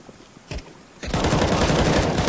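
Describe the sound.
Video game gunfire with a shotgun in play. A few brief, isolated shots come first, then a loud, dense barrage of rapid shots fills the rest.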